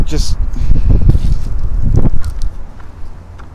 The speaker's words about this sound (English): Wind.